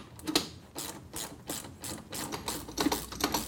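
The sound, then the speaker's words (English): Rapid ratcheting clicks from a Craftsman ratchet with a 3/4-inch socket tightening nuts during a Jeep CJ5 lift install. Many sharp metallic clicks come in quick bursts at a steady working rhythm, with no talk. “We're going to go ahead and use our Craftsman ratchet and a 3/4-inch socket.”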